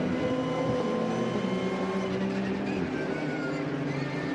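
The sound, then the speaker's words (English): Transmission whine and engine noise heard on board a Porsche 904 race car during a race: a loud, continuous mechanical drone with steady tonal whining running through it from start to finish, with no voices. “And that wonderful noise and whine of the transmission from the Giselle Technologies Porsche we ride on board with.”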